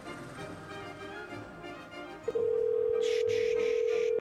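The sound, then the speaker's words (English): A steady telephone dial tone begins partway through and holds unbroken to the end, loud over music with a background melody. “I'm going to try to dial him right now.”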